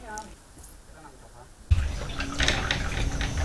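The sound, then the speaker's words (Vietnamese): Water splashes and swishes as glutinous rice, soaked for several nights in ash-filtered water, is rinsed clean. The sloshing begins abruptly partway through and continues steadily, with a faint voice-like hum before it. “Sau đó vớt nếp vo lại thật sạch.”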